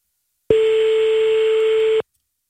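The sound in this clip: A telephone ringback tone sounds while someone is called back: one steady, loud tone lasting about a second and a half, heard alone, then silence.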